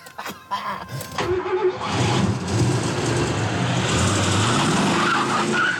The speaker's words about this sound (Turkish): Hızlı sürüyorum.